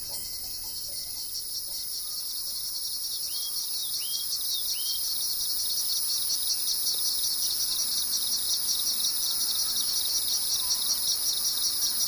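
Insects chirp along a mountain trail in the Annapurna region: a dense, continuous high-pitched chirring holds steady throughout, with a few brief bird chirps early on.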